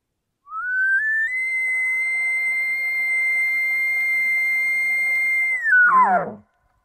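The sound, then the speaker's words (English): Elk locator call blown on a game call to imitate a bull elk: a whistled tone climbs quickly in small steps to a long, steady high note held for several seconds, then breaks sharply downward into a rough, lower tail. “This is a very non-threatening, non-emotional call that basically just uses 2 or 3 notes and carries that note out across the canyon to get a response from another bull elk. It sounds like this.”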